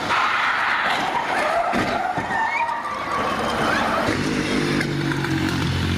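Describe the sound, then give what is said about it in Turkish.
An ambulance collides with a bus at an intersection in Istanbul, overturns and slides along the street. The loud, continuous scraping and skidding noise has a brief squeal partway through and lasts about six seconds. “Ambulans Yavuz Selim Caddesi'nde ilerlerken Fevzi Paşa Caddesi kesişimindeki bir otobüsle çarpıştı. Devrilip sürüklenmeye başladı.”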